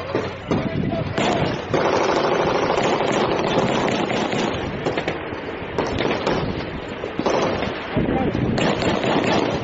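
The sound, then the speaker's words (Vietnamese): Bursts of gunfire carry from across a border, dense volleys of sharp cracks piling into sustained, rapid firing that barely lets up for the whole stretch. “đột nhiên một tiếng súng từ phía trước mặt nổi lên. Tiếp theo là từng loạt súng dồn dập tới.”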